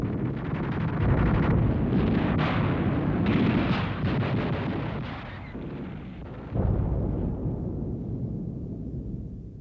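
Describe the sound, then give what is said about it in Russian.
Soviet artillery pounding the left bank of the Neva in a continuous barrage: a dense, loud roar of overlapping rumbling blasts that dips briefly, then surges back and rolls on. “Два часа 20 советская артиллерия вела непрерывный огонь по левому берегу Невы.”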